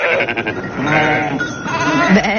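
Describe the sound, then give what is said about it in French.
A large flock of about a thousand sheep bleats on autumn transhumance, returning from summer pasture. Overlapping, wavering bleats fill the whole stretch loudly and continuously, with no talk. “Pour la traditionnelle grande transhumance d'automne. 1000 moutons, ça fait beaucoup, de retour de leur pâturage d'été.”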